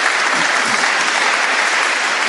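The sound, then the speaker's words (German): Applause at a festive ceremony: a dense, steady clatter of many hands clapping together, loud and unbroken throughout. “Ich glaube, das ist nochmal ein Applaus an dieser Stelle.”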